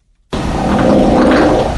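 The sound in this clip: A dog passing gas lets out one long, loud, rough blast that starts abruptly after a moment of silence and holds steady for about a second and a half.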